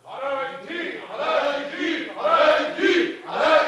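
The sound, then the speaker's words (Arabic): Crowd of people shouting from afar, demanding the release of Aladdin, heard as a rhythmic series of loud, chant-like vocal bursts rising and falling with no pause between them. “ايه الاصوات اللي جايه من بعيد دي؟ الجماهير سايره يا مولانا.”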